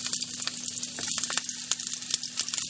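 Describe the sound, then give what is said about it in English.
A small piece of sliced onion sizzles in oil in a frying pan as the heat is tested, giving a steady, fairly quiet hiss dotted with many small crackles and pops. “you can hear there's a tiddly little piece of onion sizzling in a frying pan here. I just stuck it in there to test the heat. I'm now going to put in the rest of the onion.”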